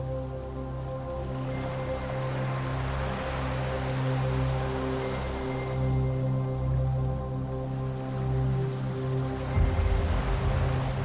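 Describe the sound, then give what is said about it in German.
Rocking ocean waves roll in a soft, steady rush that swells and eases, with a sustained low musical drone running beneath and no talking. “Das Schaukeln der Wellen macht dich schläfrig.”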